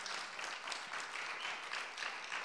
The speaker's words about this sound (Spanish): Dele ese aplauso a él y a su palabra.